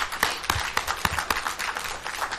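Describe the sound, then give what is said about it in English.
A church audience claps in a round of applause, with dense, steady hand claps and a few sharper accents throughout. “And so let's give a round of applause for that.”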